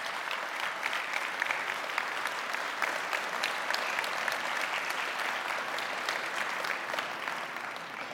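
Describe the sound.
An audience claps warmly to welcome a 102-year-old member: steady, dense applause of many hands that holds at an even level for about eight seconds and eases slightly at the very end.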